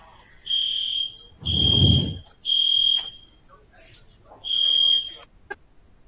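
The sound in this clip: A fire alarm goes off falsely with four shrill, high-pitched electronic beeps at uneven intervals. A low rumbling noise sits under the second beep.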